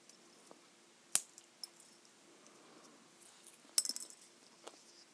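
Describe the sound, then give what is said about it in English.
Pistachio nut shells cracking open give a few faint, sharp snaps and clicks spaced apart, then a brief cluster of small rattling crackles, in otherwise quiet surroundings. “Pistachio nuts. And I love the noise when you crack them.”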